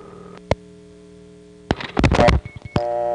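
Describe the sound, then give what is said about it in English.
Rotary telephone dialing 752 through a step-by-step selector exchange, over a steady electrical hum: a single click, then a dense flurry of rapid mechanical clicking pulses, after which a steady tone cuts in. “As I dial 752, notice the 7 and then the 5 are absorbed, and then the 2 cuts in, instead of going to that intercept tone.”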